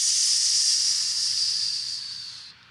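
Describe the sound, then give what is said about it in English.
A voice imitates a boat hissing as it cuts through flat calm water after leaving Falmouth Inner Harbor: one sustained, breathy hiss that fades slightly and stops after about two and a half seconds. “We leave Falmouth Inner Harbor, and instead of the boat hitting the waves like this, the boat is just cutting right through the water, just making this hissing sound like”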